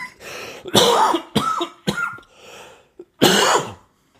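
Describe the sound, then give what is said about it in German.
A person coughing, with a few harsh, throaty bursts separated by short pauses. The coughs are loud and sharp, and no one talks over them. “So ein Huster hier. Aber ich schneide es nicht weg.”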